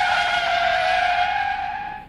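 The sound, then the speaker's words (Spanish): A pickup truck's tires screech as it skids to a stop on the pavement in front of a church. The squeal is loud, high and sustained, holding steady for about two seconds before it begins to fade. “¿Cómo va a llegar rayando llantas y va levantando polvaderón”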